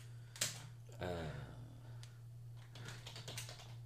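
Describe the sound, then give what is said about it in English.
Faint computer clicks as someone clicks on a website, a few sharp taps spread out over a quiet, steady electrical hum. “I'm about to click on the website here.”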